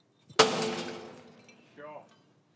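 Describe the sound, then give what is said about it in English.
A pot smashed by hand gives one sharp, loud crash that breaks into a decaying clatter of fragments over about a second. “And he would take this pot and he would smash it like this.”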